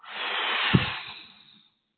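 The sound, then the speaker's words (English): A single long, deep exhale during a guided breathing exercise: a soft, airy rush that swells, gives a brief low thump near the middle, then fades away over about a second and a half. “So let's take a deep breath. And breathe out.”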